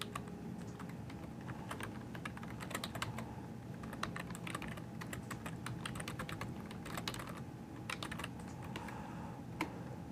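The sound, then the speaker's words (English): Typing on a computer keyboard as a URL is entered: many quick, fairly quiet key clicks in an uneven rhythm, with no talk. “So you'd put that secondary username and that password in there. And then I'm going to type in my URL.”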